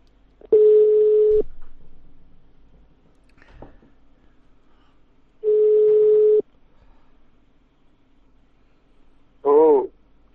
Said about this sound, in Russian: Я ему еще раз наберу, блин. Так, ребят, набираю.